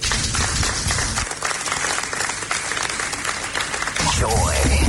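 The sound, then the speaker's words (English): Audience applause after a speech by a central-bank fintech official at a banking event: dense, steady clapping from many hands throughout, with a voice talking over part of it. “Please, a round of applause for him once again.”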